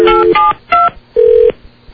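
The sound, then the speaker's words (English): Telephone dialing tones while placing a call: five loud touch-tone beeps of uneven length in an irregular rhythm, separated by short gaps, the last one cut off. “Oh, I just called him the wrong line.”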